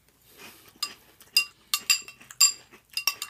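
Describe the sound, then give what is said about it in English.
A spoon clinking in a bowl while eating cereal: many light, bright metallic clinks at an irregular rhythm, some louder than others, with no talk. “Now we just eat cereal. Slowly.”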